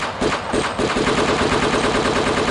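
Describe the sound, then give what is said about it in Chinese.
Rapid automatic gunfire rattles in one loud, dense, unbroken burst that runs through the whole clip, with no voices. “快啲啊，靶仔！俾我开枪扫你啊！”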